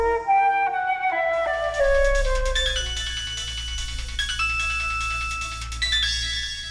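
A telephone rings with an electronic ringtone melody: a run of clear tones stepping downward, then a run climbing back up, repeating at moderate volume with no voices.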